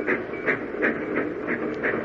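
Rhythmic rail clatter as a streamliner train passes, regular wheel beats falling about three times a second over a steady rumbling roar, even in loudness throughout.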